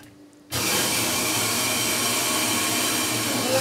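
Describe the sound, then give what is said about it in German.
Hydraulic oil rushes back after the red emergency release screw is opened. A loud, steady hiss starts abruptly after a short quiet moment and holds evenly to the end. “So, Notablass ist immer die rote Schraube. So, ich drehe jetzt mal, dann hört man nämlich, wie das Öl zurückläuft.”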